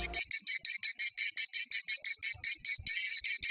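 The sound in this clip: Cicada chirping: a steady, rapid train of high, buzzy pulses repeating at an even rhythm for the whole clip, alone with no voices.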